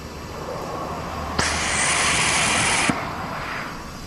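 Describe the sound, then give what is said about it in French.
A bright, hissing whir from a battery charging in a car whose electric motor drives the front axle. It switches on with a click, holds steady for about one and a half seconds, then cuts off with another click over low background rumble. “Alors, ce que vous entendez, c'est la pile. Ah, d'accord, qui charge.”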